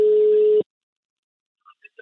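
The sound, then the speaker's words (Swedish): An outgoing call's telephone ringing tone sounds as one steady, mid-pitched burst that cuts off after about half a second, followed by silence and a few faint, short blips. “Jag tycker att vi ringer Ellen. Det gör vi.”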